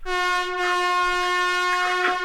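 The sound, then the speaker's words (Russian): A victory horn sounds as one long, steady blast with a bright, buzzy, harmonic-rich tone. Its pitch and loudness hold level from start to finish. “это на самом деле победный гудок был сейчас”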